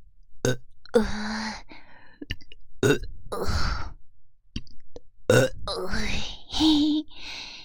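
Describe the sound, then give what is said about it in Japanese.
Burps come in a rapid series, many short guttural belches in irregular bursts, some longer and rougher than others, loud against brief silences. “うわ、こっちもゲップ”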